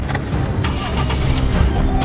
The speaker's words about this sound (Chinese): 俩人一口气跑到了车上，立刻发动了汽车。